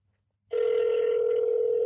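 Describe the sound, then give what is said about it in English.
A telephone ringing tone sounds while a call is being placed. After a moment of silence, a single steady, evenly pitched tone starts abruptly and holds unbroken to the end. “Okay, let's see if David answers.”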